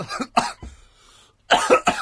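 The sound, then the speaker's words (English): A man's harsh coughs, a cabbie with a bit of a cough, in a few rough bursts, then a short lull and a second cluster of louder, hacking coughs. “I've got a bit of a cough”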